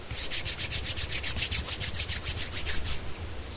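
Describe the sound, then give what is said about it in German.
Palms of the hands rubbed briskly together, making a dry, whooshing friction sound. Many quick strokes follow one another in a steady, even rhythm, then ease off near the end. “Schließen Sie nun Ihre Augen. Reiben Sie Ihre Handflächen aneinander”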